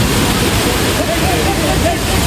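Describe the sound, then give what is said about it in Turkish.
Large sea waves over five metres high pound Değirmen Ağzı beach in Kozlu, Zonguldak, in strong wind, making a dense, continuous loud roar of surf. A voice talks over it. “Valiliğin uyarılarına rağmen Zonguldak'ın Kozlu ilçesinde Değirmen Ağzı plajında denize girenler boyu 5 metreyi aşan dalgaların arasında zor anlar yaşadı.”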